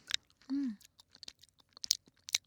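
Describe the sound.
Gummy candy being chewed close up, with soft moist clicks and smacks at irregular intervals and a brief hummed voice near the start.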